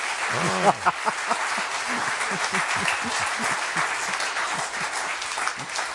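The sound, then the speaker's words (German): Steady audience applause fills the whole stretch at a lecture-style event about piano playing, a dense, even patter of many hands that holds a fairly constant level from start to finish. “Meine Damen und Herren, Sie dürfen applaudieren, denn was Sie gehört haben, ist alles richtig.”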